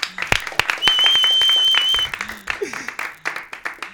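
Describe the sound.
Audience applause breaks out as an event ends, first as scattered claps, then as a steady wash of clapping with a high ringing tone. It thins into separate claps, and voices are heard in the background.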